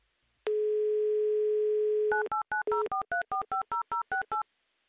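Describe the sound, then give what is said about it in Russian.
A telephone number being dialed: a steady dial tone holds for nearly two seconds, then a rapid, evenly spaced run of short two-note keypad beeps follows, each a clean, bright electronic tone. “Прямо сейчас я буду набирать ваш номер.”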